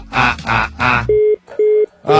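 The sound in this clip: A telephone busy tone after a caller hangs up: two steady mid-pitched beeps separated by short gaps, following a stretch of talk, with a voice starting again at the end.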